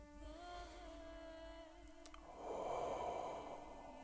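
One slow, deep exhale through the mouth during a guided relaxation exercise: a breathy rush of air lasting over a second, rising over steady sustained background tones.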